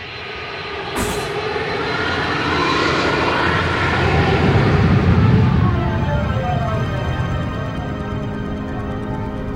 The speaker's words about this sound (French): Vol de nuit pour San Francisco. Nous faisons la course avec la lune à travers l'Amérique.